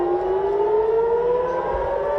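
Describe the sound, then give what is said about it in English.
Civil defense air-raid sirens wail in a steady, sustained tone that rises slowly in pitch across the span, loud and unbroken over a low rumble, during nighttime attacks between Israel and Iran. “Another night of sirens as Israel and Iran attack each other.”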